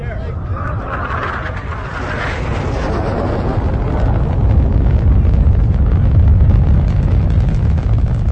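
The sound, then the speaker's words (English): A deep, rumbling roar of missiles launching across Kansas in a TV drama's retaliatory-strike scene, with voices over it. The continuous blast swells louder and heavier partway through. “Looks like all the missiles in Kansas are going off, so probably all over the U.S.”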